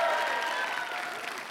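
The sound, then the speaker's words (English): An audience applauds for the band at a church service: steady, dense clapping that holds at an even level throughout and heard on its own, without voices. “Give it up for John and Allie and the whole band”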